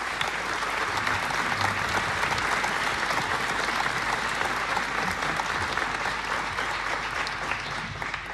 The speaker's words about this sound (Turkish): Alkışlarla Zafer Gündoğdu